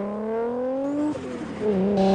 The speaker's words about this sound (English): Now Dom's vehicle jumps over one of the hills on the road, sweeps down the other side, then turns to the right, with Brian close behind him.